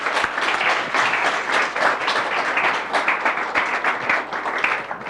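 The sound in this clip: Steady applause from a lecture audience welcoming a speaker to a talk on Polish cinema and World War II, dense and even throughout with no voices rising above the clapping.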